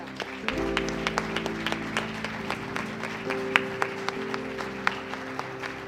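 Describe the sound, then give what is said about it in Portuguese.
A church audience applauds during an evangelical service after a prayer. Many hands clap in a steady patter over a sustained low musical tone. “Aplauda Jesus, queridos.”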